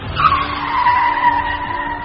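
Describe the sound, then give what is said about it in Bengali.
Tires screech as a black van brakes hard to a halt, a loud, sustained squealing skid with a steady high whine running through the whole stretch. “Animesh যখন সবে রাস্তায় পা দিয়েছে, ঠিক তখনই আচম্বিতে একটা কালো ভ্যান তার পাশে এসে ব্রেক কষল।”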